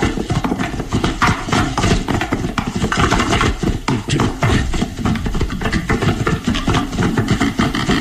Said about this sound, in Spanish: impulsa al carruaje a entrar al destartalado puente, que se estremece con el galope de los caballos.